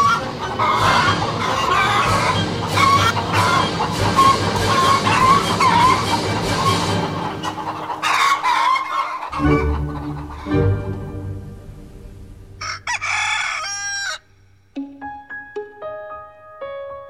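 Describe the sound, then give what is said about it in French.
Chickens cluck busily in a henhouse, and a rooster crows among them. Several seconds of dense, continuous clucking give way to louder, drawn-out calls. “Allez, on se jette dans le poulailler”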